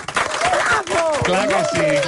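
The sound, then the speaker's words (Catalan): Audience applause runs underneath as a rough clapping wash while people talk loudly over it, the clapping dipping briefly in the middle before carrying on. “Un aplaudiment primer de tot per la Pilarín, home.”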